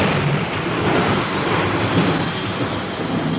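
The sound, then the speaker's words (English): A thunderstorm with rain gives a loud, continuous roar: dense rain hiss over a low, rolling thunder rumble that swells slightly but never stops. “the sound you hear is the sound of the atmosphere. And the sound of wind. The sound of thunder. The sound of rain.”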